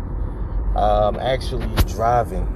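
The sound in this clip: Steady low road rumble inside a moving car being driven, with a person talking over the hum the whole time.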